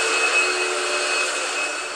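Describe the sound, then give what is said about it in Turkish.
A Dyson vacuum cleaner runs with a bright, airy roar and a thin high whine, its level sagging slightly as it powers down. “O nasıl fade out kapandı abi? Makine. Bu Dyson işte öyle fade out kapanıyor.”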